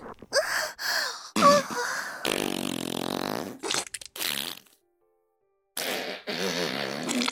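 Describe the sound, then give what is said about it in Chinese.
Several loud, buzzy flatulence bursts from a woman, broken by short gaps and one clear pause of silence, with rough, sputtering textures of varying length and pitch. “啊，不行了，实在太舒服了，又要放屁了，忍不住了”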